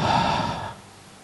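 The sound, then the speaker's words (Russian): A person breathing out in one audible, breathy exhale that starts fairly loud and fades away over about a second, with no words spoken. “זה אני נושם, נכון? Это я дышу.”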